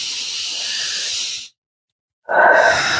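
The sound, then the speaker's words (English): A big deep breath during a guided emotional tapping exercise: a long, airy hiss of breath, then a short silence, then another strong rush of air that continues to the end. “Big deep breath.”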